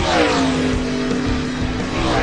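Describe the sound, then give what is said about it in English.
Loud race car engine revving, a dense sustained roar holding a strong steady tone for the full two seconds, with no voices over it. “time to crank it up. Start your engine!”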